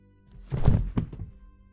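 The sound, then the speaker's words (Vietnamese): A body falls onto ground covered in wild grass, landing with one dull, heavy low thud and then a smaller, softer knock just after, alone in near silence. “Một tiếng bịch phát ra khiến cho cô khẽ giật mình. Là tiếng của một vật gì đó va chạm với nền đất, là tiếng cơ thể của gã dị nhân kia ngã vật ra, nằm sóng xoài trên đám cỏ dại.”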